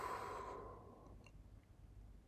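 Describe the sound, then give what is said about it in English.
A slow, deep exhale during a guided breathing exercise: one soft, airy breath that fades over about a second, then quiet. “Now let's take three more deep breaths in through the nose and out through the mouth,”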